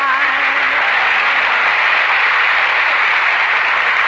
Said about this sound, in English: Say, did you hear that applause?